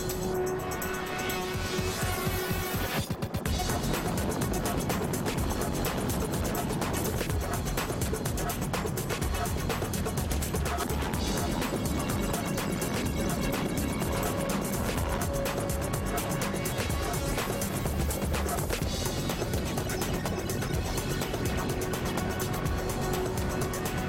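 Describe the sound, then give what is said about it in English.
A helicopter hovers over dense jungle vegetation in Guatemala, unable to land. It makes a loud, unbroken roar with rapid rhythmic chopping, and the sound shifts abruptly about three seconds in before holding steady. “Chopper can't land here. The jungle vegetation's just too dense. They're dropping a rope down, then I'm out of here.”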